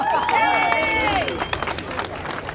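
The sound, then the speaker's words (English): Applause and cheering from an audience welcoming a contestant at a baklava-making contest; a few high, wavering whoops ring out over the start, then a dense, continuous patter of clapping and crowd noise carries on. “give her a round of applause, please.”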